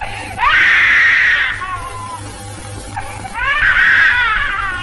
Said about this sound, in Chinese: 我的孩子也是人呢，饿了也知道要哭啊。